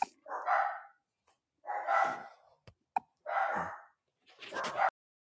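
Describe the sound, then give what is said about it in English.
Dogs bark in four evenly spaced, drawn-out bursts of moderate loudness, with quiet pauses between them and a couple of faint clicks in between. “Dogs.”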